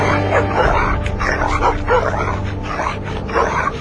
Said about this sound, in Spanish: Hasta que cayó en la jaula donde estaban dos Rottweilers.